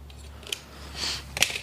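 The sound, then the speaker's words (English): Scissors cut yellow bowstring serving thread during a bow build: two faint, short, crisp snips with a soft rustle between them. “Cut a little bit of serving.”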